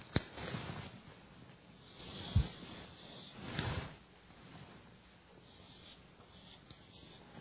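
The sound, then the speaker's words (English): Drawing on a board: faint, scratchy rubbing strokes of uneven length, with a few firmer swipes standing out and no talk. “try to actually draw this bigger so everyone can see it.”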